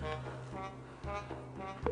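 A phone rings with an incoming call, sounding as sustained electronic tones stacked in bright harmonics, repeating in short phrases over a low hum.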